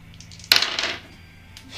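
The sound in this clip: Dice rolled for a perception check in a tabletop role-playing game: a sharp clatter followed by a short rattling that fades, then a faint tap at the end.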